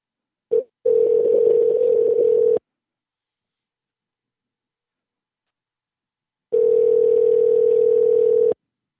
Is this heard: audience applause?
no